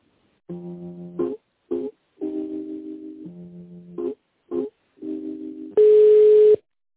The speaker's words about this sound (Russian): Сейчас я вас соединю.